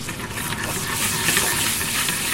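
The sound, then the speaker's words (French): Butter foaming in a frying pan gives a dense, steady sizzling hiss that stays loud and even throughout, with faint crackles on top and no talk. “Là, le beurre est en train de mousser. Alors il ne doit pas brûler, bien sûr.”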